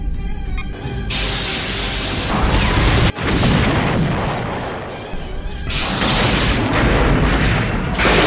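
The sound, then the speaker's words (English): Starship phaser fire and explosions in a space battle: loud, sustained roaring blasts and heavy booms, briefly cut off midway before surging back just as powerfully. “Lock phasers on the target. Locking phasers on target, Captain. They're locking phasers. Raise shields. Fire!”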